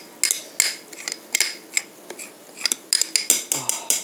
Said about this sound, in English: Stir it just a little. Oh yeah, it's definitely thick. You can hear that.